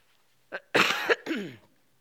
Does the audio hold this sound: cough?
yes